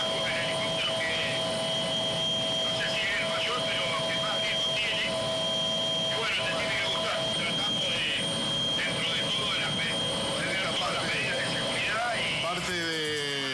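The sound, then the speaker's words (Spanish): A helicopter's rotor blades and engine, on a forest-fire flight over San Juan, make a steady droning roar with a constant whine. A voice talks over the drone. “el ruido de las aspas, de las hélices y demás, complican el audio”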